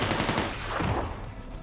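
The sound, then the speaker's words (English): Dense, rapid gunfire in a film shootout between a man leaving a bank and police officers, with bursts of shots crowding together loudly and tapering slightly toward the end. “Marshall and officers exchange fire.”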